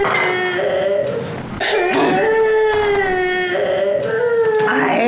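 An infant cries in loud, drawn-out wails with a strained, tonal quality, broken by a brief dip before the crying resumes just as strongly.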